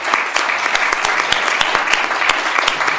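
Audience applause at a live event at a law school, a dense, steady wash of many clapping hands that stays loud from start to finish with no voices over it.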